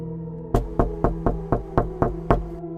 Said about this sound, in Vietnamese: Bảo Lâm gõ cửa, vài ba tiếng lóc cốc vang lên, nhưng bên trong không có hồi âm.